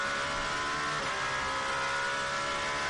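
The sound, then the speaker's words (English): A race car engine roars at high revs near Tamburello, a dense, continuous loud drone that holds steady without clear breaks. “Then flicks all the way down to third for Tamburello. Zing, zing, zing, zing, zing. You hear it go down the box. And straight back up to fourth, fifth.”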